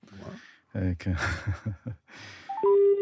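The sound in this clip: Electronic telephone tones as another call is connected: a quick stepped series of beeps ending in a steady held tone, following a stretch of speech.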